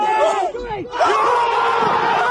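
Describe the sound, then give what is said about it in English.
A crowd roars and yells wildly after a golf putt, loud sustained cheering with individual shouting voices rising above it and a short dip before the noise surges again. “What a moment! The crowd went wild!”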